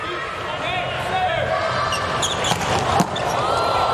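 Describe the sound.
A volleyball serve is struck during a match involving the US team, heard as one sharp impact near the end over steady, loud crowd noise.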